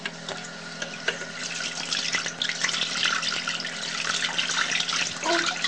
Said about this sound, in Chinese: 洗手啦